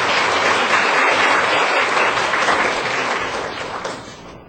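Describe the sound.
An audience applauds to welcome a woman being introduced: dense, steady clapping that stays full for most of the time, then tapers off toward the end.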